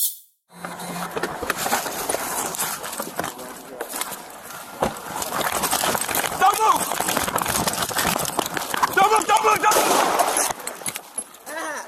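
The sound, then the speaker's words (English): Gunshots captured on a police officer's body camera as an armed suspect runs toward him: a few sharp cracks cut through constant rustling and movement noise, with voices present throughout. “Shots fired.”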